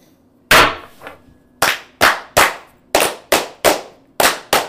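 Brothers perform the Masonic toast 'fire' in unison: a series of sharp, loud strikes in a quick, grouped rhythm, each cracking out cleanly over near silence.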